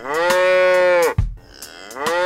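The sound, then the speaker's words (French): A cow moos in one long, low, steady call that breaks off abruptly, followed by a brief thump and then the start of a second moo. “Cette petite vache fait.”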